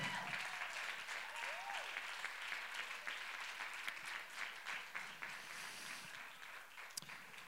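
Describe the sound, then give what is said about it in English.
A church audience applauding in praise: dense, sustained clapping that fills the whole stretch at an even loudness, easing slightly toward the end. “Come on, give them a shout of praise.”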